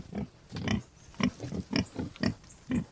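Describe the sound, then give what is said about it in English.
Farmed wild boar grunt in their run on the Kilkenny-Waterford border in Ireland: a rhythmic series of many short, low, rough grunts, fairly quiet and spaced roughly evenly. “Micheál Hanrahan farms boar near Lister Lynn on the Kilkenny-Waterford border, and he let me get up close and personal with his stock.”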